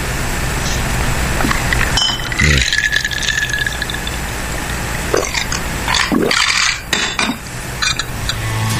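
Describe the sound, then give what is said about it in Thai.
Clinks of utensils against a glass while a single drink is mixed, with brief liquid sounds, a steady run of small clattering taps and light knocks throughout, without talk. “ขอเสียงการชงใช่ไหม”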